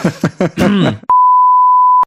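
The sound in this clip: A censor beep sound effect, a single loud, steady, high-pitched tone lasting about a second, follows a brief burst of speech.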